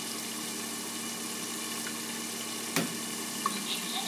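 Range hood fan running over a stove, a steady, faint whir with a low even hum and a couple of small clicks near the end.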